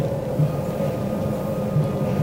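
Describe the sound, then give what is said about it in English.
Interior of a moving passenger train carriage on a long two-section train, a steady low rumbling drone with a faint sustained hum and occasional soft bumps, no voices. “There are two sections of train. I'm in the first, that's car 1 to 19. It's about a mile walk from 1 to 19.”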